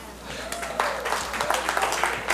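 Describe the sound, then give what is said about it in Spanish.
Audience applause at a live talk: dense, fast clapping that swells and holds at a moderate level, with a voice speaking over it. “Dense un aplauso.”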